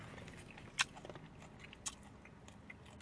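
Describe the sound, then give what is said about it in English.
Faint chewing of juicy food, with soft, wet mouth sounds and two sharper crunchy bites standing out clearly, and no talking. “I'm sucking that juice in. With every three chews, I suck it in.”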